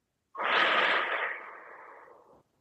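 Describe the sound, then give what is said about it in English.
One long, slow breath during a guided meditation, strong at the start and then gradually tapering away into silence. “So breathe in and out.”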